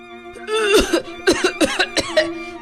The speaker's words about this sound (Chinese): 他咳嗽起来。